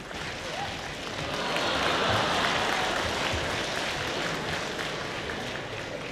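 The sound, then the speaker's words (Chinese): Audience applause at a live crosstalk comedy show for young performers, a dense wash of clapping that swells slightly in the middle and holds at a moderate level throughout. “谢谢您的掌声鼓励。”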